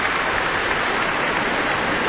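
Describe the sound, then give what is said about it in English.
Sustained applause from a concert audience for vocal soloists, including a soprano and a contralto, and a radio chorus. The clapping forms a dense, even wash, like rain, with no break. “certainly for that audience too, who were applauding soprano Lina Lutens, Roberta Invernizzi as well, Gloria Banditelli, the contralto”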